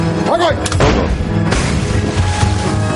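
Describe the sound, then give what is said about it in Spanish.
A shot lands near a German boat in a World War II coastal setting, producing heavy booming impacts that give way to a loud, sustained rumbling roar. “El disparo cae cerca del barco alemán.”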